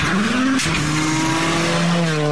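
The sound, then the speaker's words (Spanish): A car engine revs at full throttle in a loud, sustained high drone. Its pitch climbs briefly, then drops in a quick break and holds steady, with a harsh edge like tire squeal. “el acelerador a fondo.”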